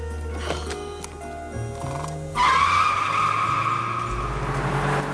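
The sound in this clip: Tyres skid as a soft-top car drives off: a low engine rumble gives way midway to a loud, sustained, high-pitched squeal over roaring engine noise that lasts to the end.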